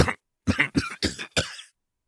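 A rough, harsh cough breaks out in a fit of several raspy bursts with short gaps between them, loud and alone with no talk.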